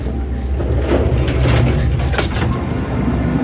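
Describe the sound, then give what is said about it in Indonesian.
Elevator doors sliding shut in an audio drama: a steady, rumbling mechanical whoosh with faint rattling that runs evenly for the full few seconds, with no voices. “Dia masuk ke dalam lift dan melempar senyum padaku, lalu menekan tombol liftnya hingga pintu lift pun tertutup.”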